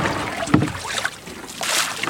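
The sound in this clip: Water is bailed out of a rowing boat on a loch, with rough splashing and sloshing bursts over a steady noisy wash and no voices.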